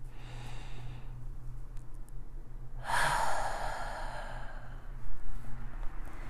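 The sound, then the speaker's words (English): A slow, deliberate yoga breath, drawn in through the nose and let out through the mouth: two long, airy rushes of breath over a faint, steady low hum. “And start to create a more deliberate, intentional breath. Inhaling through the nose. Holding and exhaling out of the mouth.”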